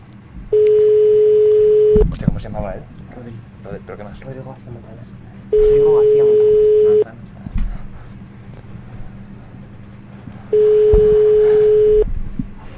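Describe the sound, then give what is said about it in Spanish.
Telephone ringback tone on an outgoing call: three level, mid-pitched tones of about one and a half seconds each, repeating at regular intervals, with people talking over and between them. “Ah, están llamando ya. A ver, ya está dando llamada.”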